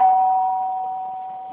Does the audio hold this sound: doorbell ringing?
yes